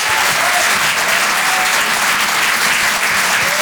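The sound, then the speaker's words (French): Applause from a comedy-show audience encouraging a comedian as he is introduced: thick, continuous clapping at a steady, loud level from start to finish. “Je vous demande de l'encourager, faites du bruit s'il vous plaît pour Arthur sur Rire et Chanson.”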